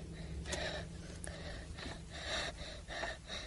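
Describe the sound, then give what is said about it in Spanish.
Heavy breathing in repeated rough, breathy rushes of air, many gasping inhales and exhales in an uneven rhythm, with no talk. “Deja de respirar así.”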